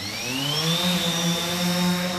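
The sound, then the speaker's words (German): A multicopter drone flies inside a cage in a university courtyard, circling the tip of a rotor blade standing on the ground. Its rotors make a continuous buzzing whine that climbs slightly in pitch early on, then holds steady. “In einem Käfig im Innenhof der Hochschule Hannover steuert der Ingenieur Manuel Scherlis eine Drohne. Sie umkreist die Spitze eines Rotorenflügels, der auf dem Boden steht.”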